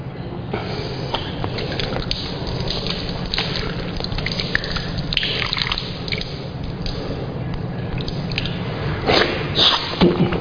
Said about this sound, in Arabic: الآن سأتوضأ وضوءا كاملا من الأول إلى النهاية بالطريقة التي ذكرت في الحديث عن النبي صلى الله عليه وسلم في الصحيحين